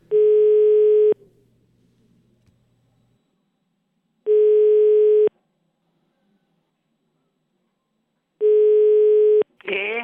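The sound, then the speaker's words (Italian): Telephone ringing tone while a call is placed: three steady mid-pitched tone bursts, each about a second long and spaced roughly four seconds apart, with near silence between them and a voice starting right at the end. “Ragazzi, avete il numero di telefono pronto? Dalla regia, è pronto? Chiamiamo, dai.”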